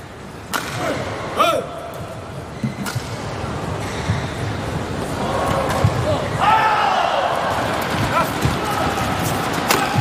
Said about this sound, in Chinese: 任翔宇发球。